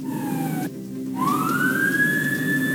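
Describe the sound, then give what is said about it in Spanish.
Police vehicle sirens arrive at a highway emergency. A loud wailing tone slides downward, cuts out briefly, then sweeps back up into a sustained high wail over steady traffic rumble. “ahí vienen llegando los efectivos policiales con balizas, con sirenas, para que los dejen pasar, producto de la emergencia.”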